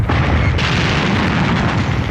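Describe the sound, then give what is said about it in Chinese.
A hand grenade explodes during a night battle: a loud, dense, rumbling roar that fills the whole clip as one sustained blast, with no separate bangs. “手榴弹在爆炸，掀起一个巨大的火团。”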